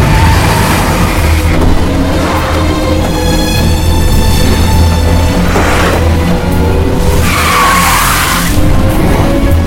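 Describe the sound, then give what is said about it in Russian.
A car skids through a turn on wet streets in heavy rain, with constant loud rushing noise under an engine drone. A high squealing whine rises partway through, and whooshing surges come near the end. “Сильный дождь заливает стекло машину, заносит на повороте.”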